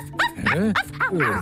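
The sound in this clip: A voice imitating a dog's barking gives about five quick, yelping woofs with rising and falling pitch, delivered in a playful way.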